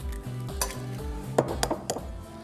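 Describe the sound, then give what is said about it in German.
A whole egg goes into semolina pasta dough in a bowl, giving a few sharp clinks and taps against the bowl over a low, steady hum. “Dann mache ich ein ganzes Ei mit rein.”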